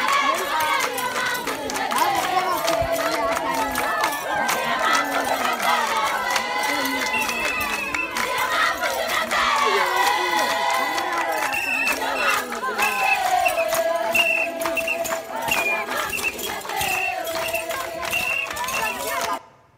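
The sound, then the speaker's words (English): Villagers dance and welcome visitors as a loud crowd, with many voices overlapping steadily throughout before the sound cuts off abruptly at the end. “The next slide is another video of them dancing and welcoming.”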